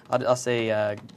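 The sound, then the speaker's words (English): Typing on a computer keyboard while coding in Visual Studio, with quick, light key clicks around a man's speech. “I'm in Visual Studio, so let's do some typing instead of some designing here.”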